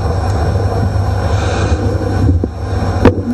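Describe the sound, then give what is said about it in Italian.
Aircraft engine drone from B-17 bombers over Bolzano during the 1940–1945 bombing raids: a steady, dense, rumbling roar with a strong low hum that continues throughout, broken near the end by a couple of short sharp clicks. “Ancora aerei, sempre che i B-17”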